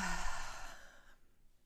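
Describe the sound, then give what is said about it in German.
A slow, deep breath let out through the mouth during a guided meditation, a soft breathy hiss that fades to near silence after about a second. “Nimm nochmal einen tiefen Atemzug durch die Nase ein und durch den Mund wieder aus.”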